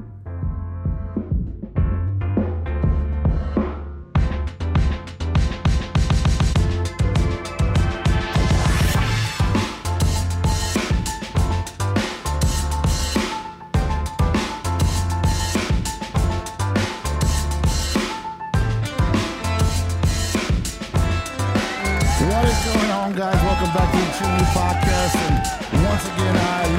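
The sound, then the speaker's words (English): Loud music plays full blast without a break, with a heavy, pounding bass beat and dense layered instruments running steadily through the whole stretch. “You can hear the music going full blast in the background.”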